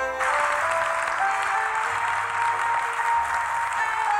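A game-show studio audience bursts into applause to welcome a contestant on Fact or Fiction: loud, dense clapping that starts abruptly and holds steady, with sustained musical tones running underneath.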